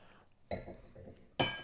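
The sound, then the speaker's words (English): Drinks being poured into glasses, two Italian drinks, with a low, pulsing pour and then one bright, loud glass clink ringing out near the end. “Why do you pour slightly more than me? You do that to annoy me. I don't. I don't notice. You were looking at my glass the whole time.”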